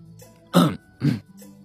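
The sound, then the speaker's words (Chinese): A man coughs or clears his throat in a quiet bedroom scene. Two short, throaty bursts come close together, the first slightly longer, over a faint low hum. “展昭咳嗽一声，站起来去拿床头柜上白玉堂换洗的衣服。”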